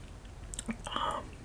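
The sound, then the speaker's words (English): Soft chewing and wet mouth sounds as someone eats a small bite, faint and close, with a few brief crunchy bursts in the middle. “Oh, I'm trying to eat it, guys.”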